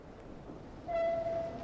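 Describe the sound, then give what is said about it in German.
A railway train rumbles low and steadily, then a single sustained horn tone sounds over it for about half a second before it fades back to the rumble. “Musste jetzt die Eisenbahn benutzen.”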